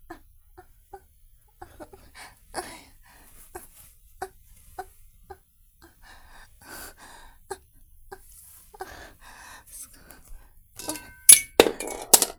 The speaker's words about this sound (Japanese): ごめん、ブラシ落としちゃった。